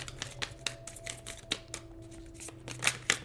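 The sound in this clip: Tarot cards being shuffled and drawn make many quick, soft papery flicks and taps in an irregular rhythm, with a faint steady hum underneath.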